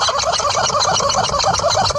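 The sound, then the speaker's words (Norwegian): A horse shakes a rubber chicken toy intensely, producing a continuous, loud stream of raspy, fowl-like squawks. Many quick squeaky pulses follow one another with no pauses. “på et tidspunkt så er det nesten så jeg tror at den skal klare å riste gummihøna I filler.”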